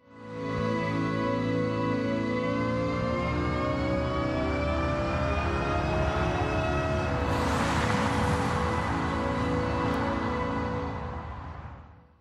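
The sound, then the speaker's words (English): Synthetic sound created by Nissan in 2017 for a future electric car: a loud, sustained, layered tonal drone whose harmonics slowly rise, joined by a rushing hiss partway through, then fading at the end. “Listen to the sound Nissan created in 2017 in an attempt to make one of its future electric models sing.”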